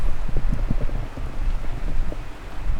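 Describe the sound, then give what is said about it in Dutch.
Strong wind blowing at a campsite, roaring across the microphone as a continuous low, rumbling buffet with gusty surges and no clear pauses. “Het waait wel wat hard.”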